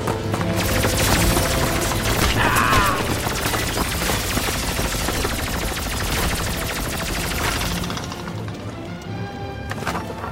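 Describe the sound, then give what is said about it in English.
A sentry bot robot fires its weapons in a video game, pouring out dense, sustained bursts of loud automatic fire for most of the stretch before the barrage drops away near the end. “Weapon status engaged. What the heck is that? Sentry bot, run for your lives! Threat analysis. Red. Weapons free.”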